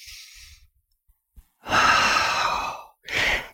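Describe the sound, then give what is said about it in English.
Deep diaphragmatic breathing demonstrated by a psychologist: a long, drawn-out breath of rushing air, then a brief pause and a shorter, breathy exhale, fairly loud and with no speech. “to take some deep diaphragmatic breaths”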